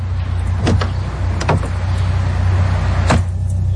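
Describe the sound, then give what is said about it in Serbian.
Car door sounds as someone climbs into a car: a few sharp clunks and thuds over a steady low engine hum, the last one the crispest. “ošuć u auto”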